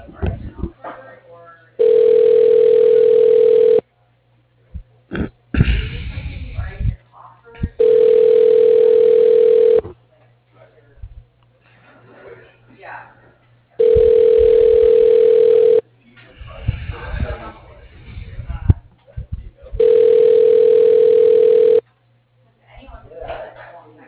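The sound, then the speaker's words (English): Telephone ringback tone on an outgoing call before it is forwarded to voicemail: four steady, buzzing rings about two seconds long, evenly spaced. Voices and line noise fill the gaps between them. “Your call is being forwarded to a ShoreTel voicemail system.”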